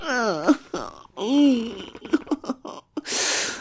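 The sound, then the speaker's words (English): A man groans in a few drawn-out moans of wavering pitch, some short and broken, ending in a breathy rush of air. “Oh, fuck, listen to you groan.”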